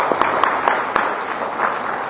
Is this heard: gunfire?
no